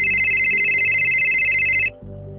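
An electronic phone ringtone plays a steady, bright, high tone for about two seconds, then cuts off abruptly, leaving a low background hum.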